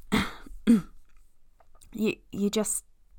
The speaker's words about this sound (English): clears his throat